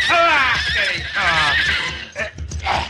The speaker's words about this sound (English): Your pardon, senores, but you saw how my horse was acting.